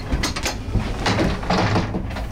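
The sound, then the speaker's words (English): A door opens as someone steps through into a pub theatre in West London, with a few short rattles and knocks over a steady rushing background. “And I'm just heading inside to see what it's all about. Step through this door, step back in time.”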